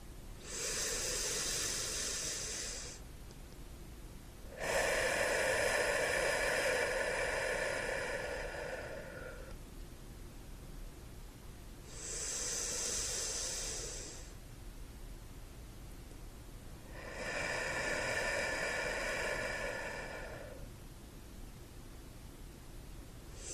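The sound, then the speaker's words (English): Slow, deep human breathing: airy, hissing inhales alternate with longer, fuller exhales, separated by quiet pauses. Calm and unhurried, with no talking. “Let's take 3 deep breaths together.”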